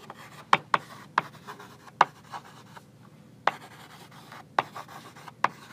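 Dots are drawn on a board during a physics lecture, each one a short, sharp tap. About seven taps fall at irregular intervals over a soft, steady hiss.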